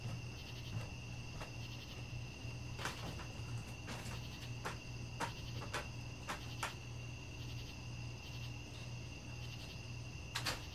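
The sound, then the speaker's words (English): Crickets chirp outside at night, a faint, steady high-pitched trilling that holds unbroken throughout, with no voices. “Which is really relaxing to listen to the crickets chirping.”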